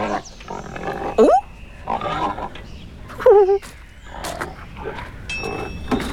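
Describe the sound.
Pigs grunt in a farmyard, with a few sharp squealing bursts among lower, rougher snorts.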